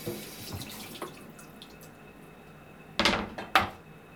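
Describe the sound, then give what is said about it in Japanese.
Running tap water rinses a cutting board, a faint steady hiss broken by a few soft clicks and two louder knocks near the end. “一回軽くまな板を洗って”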